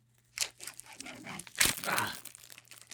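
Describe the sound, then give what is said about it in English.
Crinkly plastic tearing and crackling as the wrapper of Frigo Cheeseheads string cheese is peeled open, a continuous crunchy rustle that starts after a moment of quiet, peaks midway and fades near the end. “You ready to peel? I'm ready. All right, this is the wrapper, folks, not the cheese.”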